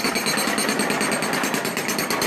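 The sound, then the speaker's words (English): A jackhammer busts up a New York sidewalk with a loud, continuous, rapid hammering rattle that stays steady and unbroken from start to finish. “Oh, wow. Jackhammer.”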